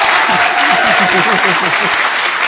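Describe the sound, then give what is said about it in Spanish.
Wild, unrestrained applause from the guests at a party, a loud and continuous wash of clapping with a voice audible underneath. “Y más tarde prorrumpieron en un desenfrenado aplauso.”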